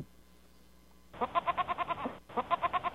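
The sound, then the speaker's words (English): A person imitates a goat's bleat with two quavering calls. The first lasts about a second and the second is shorter, and both pulse rapidly with a nasal buzz. “Sheeps say, goats say, meh.”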